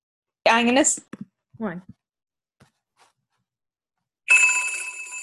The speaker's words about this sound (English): we have a caller. Oh, great. Let me answer that.